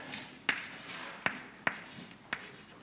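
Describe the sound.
An equation is written on a board while a mass balance is worked out: faint scratchy strokes broken by a few sharp taps, with no one talking.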